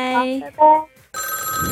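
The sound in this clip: Telephone ringing as a caller's line connects during a phone-in quiz: a short, bright ring is followed, after a brief gap, by a sustained multi-tone ring. A voice is briefly heard at the start.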